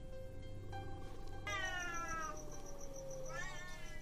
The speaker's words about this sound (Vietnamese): cô nhanh chóng nhận ra đây không phải là tiếng trẻ con, mà là tiếng mèo kêu.